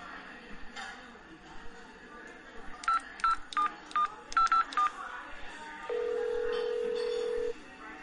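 Telephone keypad tones sound as a call is dialed: a quick series of short, bright beeps in an uneven rhythm, followed by one longer, lower steady tone, all over a faint background.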